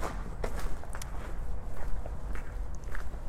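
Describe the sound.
Footsteps of a person out on a walk sound as a steady run of regular, soft thuds, with no talking over them.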